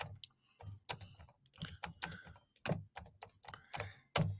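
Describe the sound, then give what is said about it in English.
Typing on a computer keyboard, many quick, irregular key clicks in short bursts separated by brief pauses, fairly faint and without talk. “I'm trying to type this here too.”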